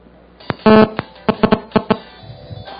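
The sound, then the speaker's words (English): A mobile phone ringtone plays as a few short, bright tonal bursts in an uneven rhythm, loud against a quiet background. “You know what that is? That's my phone, isn't it? Jeez. Turn it off, idiot.”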